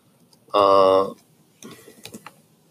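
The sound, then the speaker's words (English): Typing on a computer keyboard. A short vocal sound comes first, then a brief, light run of a few clicking keystrokes, fairly quiet. “If I can freaking type.”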